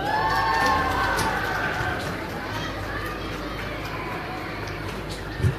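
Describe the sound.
A huge crowd at a Wexford Festival Opera event cheers and claps to welcome a special guest onto the stage, a steady wash of noise that is loudest at the start and eases slightly.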